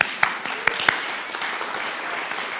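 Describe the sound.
An audience applauds to welcome a speaker. The clapping is steady and sustained, with a few louder individual claps popping out early, and it carries on evenly to the end.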